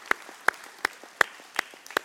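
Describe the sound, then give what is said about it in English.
Audience applause for graduates' parents: loud, evenly spaced claps in a steady rhythm over a softer wash of scattered clapping. “give you guys a round of applause”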